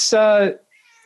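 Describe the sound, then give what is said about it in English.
A domestic cat gives a single loud, drawn-out meow with clear tonal harmonics that sag slightly in pitch before cutting off, followed by near silence. “the cat has some thoughts”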